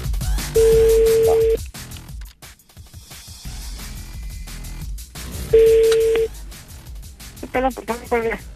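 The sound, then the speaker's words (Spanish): Telephone tones while a number is redialed for a phone call: two steady, sustained tones, then a quick cluster of short dialing tones near the end, over constant noisy background. “Ok, bueno, volvemos a marcar.”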